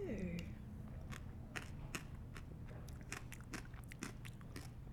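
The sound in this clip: Someone eats a slimy, snot-like fruit. Moist clicks and small crackling bites come in an uneven run of quiet mouth noises over a low, steady hum.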